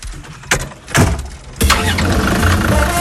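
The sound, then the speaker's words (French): A 4x4 off-road vehicle with its original engine rumbles in the Camargue: a few loud bursts give way to a steady, full-bodied running drone that holds to the end. “Grimpez. Grimpez avec moi à bord d'un 4x4. Motorisation d'origine, confort sommaire.”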